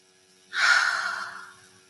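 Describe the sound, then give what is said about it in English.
A single deep breath taken to ease stress, a soft breathy rush that swells quickly and then tapers away over about a second, alone against near silence. “if you are stressed out, one thing that's great to do is deep breath”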